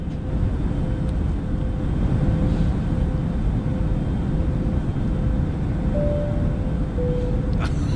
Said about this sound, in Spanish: te vas a poner ambiente de ah, avión